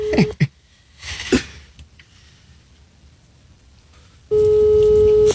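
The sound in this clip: A telephone call on speakerphone with the phone held against the microphone: a short tone and a few faint clicks and rustles, then quiet, then a loud, steady phone tone sounding alone at the end.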